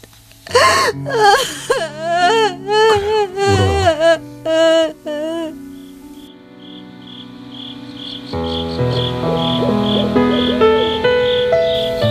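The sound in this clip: A person cries freely while being hugged, letting out several bursts of wavering, high-pitched wailing sobs. Soft, sustained music with chiming tones follows.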